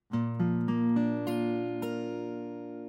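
A B-flat chord is played with its notes struck one after another, about six distinct attacks that ring on together into a sustained, resonant chord that slowly fades.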